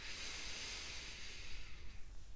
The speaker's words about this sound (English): Breathe in.